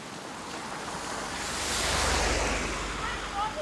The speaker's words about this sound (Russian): На улице ливень.